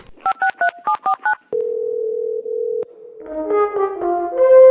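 Telephone tones from answering-machine playback: a quick run of short keypad dialing beeps, then a steady dial tone, then a loud series of overlapping chime-like tones that grows stronger toward the end.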